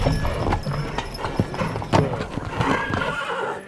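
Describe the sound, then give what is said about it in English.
A horse-drawn carriage comes to a halt with a jerk: hooves clop steadily and a horse whinnies, moderately loud and continuous. “the carriage stops with a bit of a jerk”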